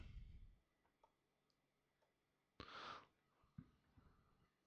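A few short, faint computer mouse clicks while someone browses a book listing online, spaced out over a quiet background, with one louder brief rustling burst in the middle.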